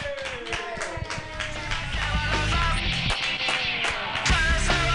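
Audience applause at an open mic night: a dense, steady patter of many clapping hands that holds through the whole stretch and swells slightly toward the end.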